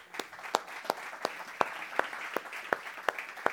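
Audience applause for a church worship group: about ten sharp claps in steady unison rhythm stand out over a softer continuous bed of scattered clapping.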